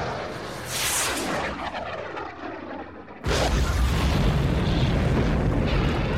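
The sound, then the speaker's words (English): Ground-to-air missiles fire at close incoming fighter craft and a hovercraft. A rushing, roaring whoosh builds and fades over about three seconds, then a sudden loud blast breaks in and becomes a dense, sustained rumbling roar. “I'm arming the ground-to-air missiles. This wave of TIEs is too close to get aloft. Target that hovercraft. The second wave of TIEs is in the distance. Copy that. Missiles away!”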